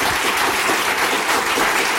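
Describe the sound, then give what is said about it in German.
Audience applause at a live show: dense, crackling clapping that stays loud and steady for the whole clip, with no voices standing out. “Applaudieren Sie auch für den Mann, ohne den ich jetzt nicht hier wäre, Felix Lobrecht.”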